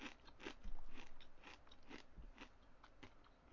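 Someone bites and chews crunchy food, producing several crisp, dry crunches in an uneven rhythm, moderately loud, with no talk over them.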